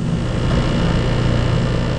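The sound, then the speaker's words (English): Steady mechanical whirring hum of equipment as sensors are calibrated in a university lab that measures gas stove emissions, a dense, even drone with no breaks and no voices. “This is the sound of Rob Jackson calibrating sensors at his lab at Stanford University.”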